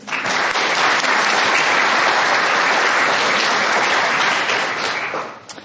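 Loud, dense audience applause welcoming a panel of chefs and restaurateurs at a food discussion, sustained at full strength before tapering off quickly in the last half second.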